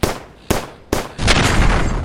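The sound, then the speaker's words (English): Automatic weapon gunfire at a houseboat: three sharp, separate cracks spaced apart, then a continuous loud, dense burst of rapid fire through the second half, with no voices. “Good lord, when did Vamp start using automatic weapons?”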